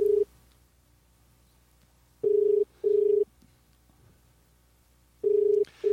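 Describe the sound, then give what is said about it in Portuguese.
Ringing tone of an outgoing telephone call: steady low beeps in short paired bursts separated by long silences, with a clipped burst at the start and another cut off at the end. “Opa, ligando de novo.”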